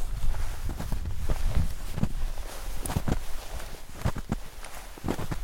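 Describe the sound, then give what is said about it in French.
Slow footsteps crunch through 5-6 cm of snow on a glacier, many steady, soft, crisp steps over a constant rushing background. “J'essaye de marcher dans les pas du guide avec 5-6 cm de neige sous les pieds, et on marche plutôt lentement”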